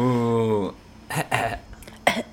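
Coughing: a voiced sound, then a few short, harsh bursts spaced unevenly.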